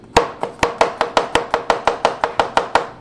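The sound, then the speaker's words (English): A knife slices through garlic cloves in a brisk, even rhythm: a long, steady run of crisp, loud strokes with no talking. “slicing the garlic.”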